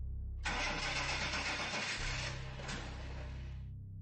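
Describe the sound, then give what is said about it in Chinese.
A car engine cranks but fails to start, giving a steady grinding whir for about three seconds over a low, constant hum. “姨父要出车，可是这车就怎么都发动不起来。”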